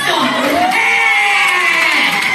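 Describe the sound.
A stand-up comedy audience cheers and whoops. A loud yell swoops through the pitch over a constant bed of crowd noise.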